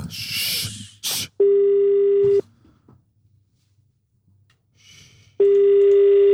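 Telephone ringback tone heard while calling someone: two long, steady, buzzing tones, each about a second, separated by a pause of roughly three seconds. Brief noise comes before the first tone, and faint sounds fill the quiet gap.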